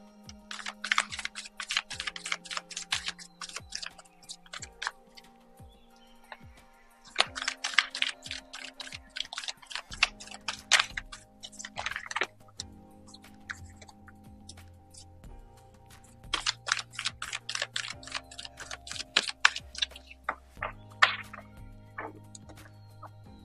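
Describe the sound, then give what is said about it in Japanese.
Tarot cards are shuffled in three separate bursts of rapid, crisp ticking and fluttering clicks, with soft background music and low sustained tones underneath. “カードをシャッフルします。少々お待ちください。”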